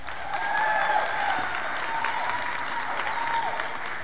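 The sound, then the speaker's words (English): A church audience applauds to welcome a pastor, a continuous, even wash of clapping that stays at a steady moderate level throughout. “All right, so let's give a City Hope welcome to Pastor Tom Watson.”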